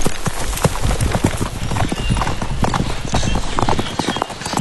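Horse hooves clip-clop steadily under a rider, many loud, rapid hoofbeats in a driving, even rhythm that continues throughout.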